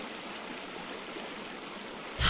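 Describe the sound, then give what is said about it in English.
River current flowing: a steady, unbroken rush of water that fills the whole clip, with a louder surge right at the end. “Maybe if I get back on my tube and float with the river, I can spot my goggles. Stand still and face the current.”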